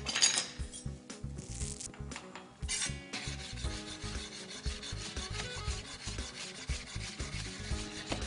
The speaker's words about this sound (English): So now what I'm gonna do is all those leftover peaches that I have, I'm just gonna give those a rough chop.